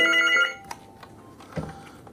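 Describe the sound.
A telephone at a police station gives one short, bright electronic ring, then falls silent apart from a few faint knocks and handling noises.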